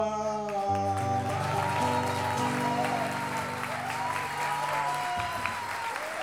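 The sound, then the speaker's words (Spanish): Audience applause for a performer at a national verse-improvisation duel, a steady, full wash of clapping. Sustained instrumental tones sound beneath it. “Aplauso a Rodrigo Núñez, les pide Luciano”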